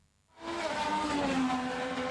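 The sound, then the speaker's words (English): Race cars roar through the streets of Washington past the Capitol and National Mall at over 300 km/h; after a brief hush, a loud, sustained high engine whine sweeps in and holds steady. “President Trump waved the green flag and then they were off. 25 drivers roaring through the Capitol's streets.”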